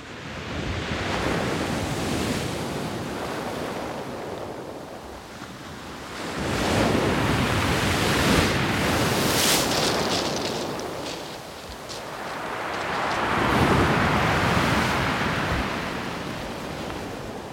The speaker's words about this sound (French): nous sommes à marée basse, euh, lors d'une marée de grand coefficient